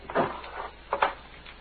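A drawer is pulled open during a search for ink: a couple of short wooden scraping rattles, one early and one later, each fading quickly against a quiet background.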